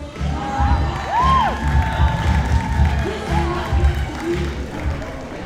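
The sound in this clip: An audience gives a whoop of approval as a 65-year-old woman sways her hips to music in a dance program. A single rising-and-falling whoop stands out over crowd noise and a low rhythmic beat.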